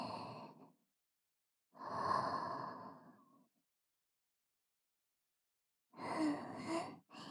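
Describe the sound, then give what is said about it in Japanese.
Slow breathing in and out: a few long, airy inhales and exhales, each separated by a silent pause. “吸って、吐いて、”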